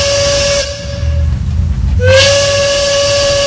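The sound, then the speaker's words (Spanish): A steam train's whistle gives two long, steady, high blasts separated by a short break. Hissing steam and a low rumbling run beneath them throughout. “Nosotros listos para irnos a la primera estación del tren de la tarde.”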